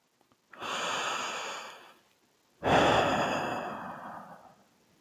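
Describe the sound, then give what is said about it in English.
A slow, deep breath in during a guided relaxation, followed after a short pause by a long, airy breath out. Both are breathy and smooth, with no voice over them. “Now take in a deep breath.”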